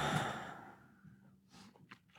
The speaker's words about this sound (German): Komm, lass nochmal machen. Einatmen und ausatmen.